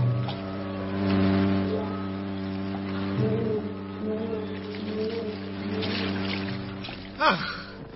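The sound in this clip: A motor launch boat speeding on the water gives a steady, droning engine hum with layered tones that waver slightly in pitch, running throughout, with a brief louder burst near the end.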